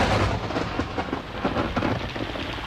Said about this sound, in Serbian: Pada strašna kiša. Pada strašna kiša. Nebesa se trese.